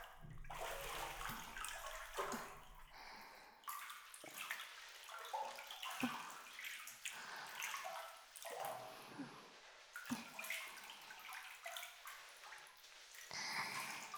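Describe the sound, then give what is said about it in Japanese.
Running water splashes as an arm is washed, a steady wash of water broken by frequent sharper splashes and drips, with no voices. “こっちもしっかり洗っていくぞ。”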